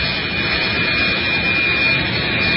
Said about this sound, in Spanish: Efectivamente, vino un jet privado, y parece que una mesnada de jovencitas ha aterrizado el jet,